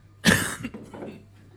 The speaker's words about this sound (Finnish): Ja alan yskiä.